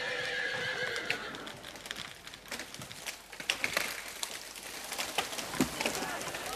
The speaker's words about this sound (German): 6.000 Pferde werden eingesetzt.